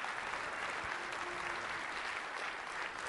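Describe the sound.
An audience at the CodeMash conference applauds to welcome a Microsoft speaker, giving a faint, steady patter of many clapping hands that holds evenly throughout.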